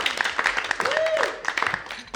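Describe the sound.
Audience applause greeting a comedian introduced onstage at a variety show: a brisk clatter of many hand claps, with a voice whooping in a rising then falling arc partway through.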